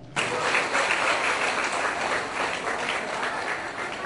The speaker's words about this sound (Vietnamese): hai trưởng môn phái hãy chào bạn mình các bạn mình hãy dành cho một tràng phát tay nữa